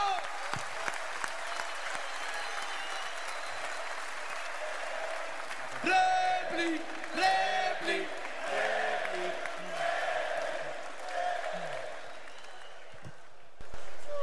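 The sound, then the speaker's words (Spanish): Audience applause at a live show: a steady wash of clapping fills the whole stretch, with some shouts and cheers rising in the middle before the clapping thins out. “¡Fuerte el aplauso!”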